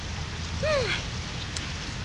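Rain falling steadily outdoors, a constant even hiss at low level with no distinct drops standing out.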